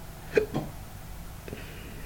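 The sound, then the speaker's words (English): A person hiccups while recording a spoken reading: one short, sharp catch stands out near the start, followed by a few fainter breathy catches against a quiet, hissy background. “We're going to try not to hiccup through this one.”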